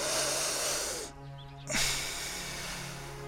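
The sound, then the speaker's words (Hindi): Loud, deep breathing from a patient asked to breathe hard during a doctor's examination: a long rushing breath, a brief pause, then a second long breath. “जोर से सांस लो।”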